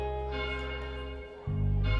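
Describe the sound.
A deep bell rings with a sustained, humming tone rich in overtones that slowly fades, then a heavy new strike sounds near the end and rings on strongly.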